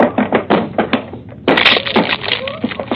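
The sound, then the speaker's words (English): A locked cabin door aboard a ship is broken down: a few heavy thumps are followed by a louder splintering crash and rattling wood, with voices faintly present. “It's locked. Well, break it down.”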